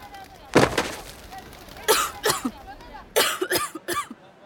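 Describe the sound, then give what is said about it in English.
Choking and gasping from a woman being strangled and lifted by one hand in an audio drama: a few harsh, strained coughing and gasping bursts, rough and breathy, separated by short pauses. “Bull reaches over Grayson's shoulder and chokes Tasha. He picks her up with one hand. Tasha kicks her feet as she struggles to breathe.”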